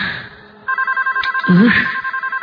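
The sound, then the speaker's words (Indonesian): A telephone bell rings in a room with a rapid, evenly pulsed trilling ring. It starts abruptly after a quieter opening, repeats steadily to the end, and a brief vocal sound cuts in midway. “ini telepon bikin kaget aja deh ah. Ada suara telepon berbunyi di kamar itu.”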